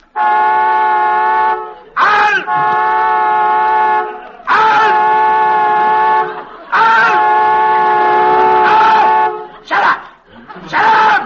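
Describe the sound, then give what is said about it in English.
A car horn stuck on after a crash, shorted and blaring on its own in long, loud, sustained blasts separated by brief breaks. “Honking that horn. I'm not honking, sir. There must be a short, sir. The crash must have done it, sir.”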